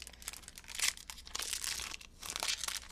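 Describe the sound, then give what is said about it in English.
Pokémon card pack wrappers crinkling and tearing as the packs are opened, in bursts of crisp, irregular rustling and crackling with no voices. “today I'll be opening two Pokemon card packs”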